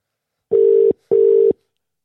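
A telephone ringing tone sounds as a call is placed: two loud, steady, even-pitched pulses in a double-ring pattern, each lasting under half a second, separated by a short gap, with no voices.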